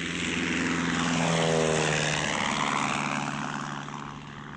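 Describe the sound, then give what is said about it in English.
A Lysander propeller aircraft comes in to land on a grass patch and rolls to a stop. Its droning engine has a steady tone that swells slightly and then fades toward the end. “The Lysander's wing almost touched the face of the cliff as they descended towards a patch of green. The wheels settled into grass, and Dobson breathed easily as the aircraft rolled to a stop.”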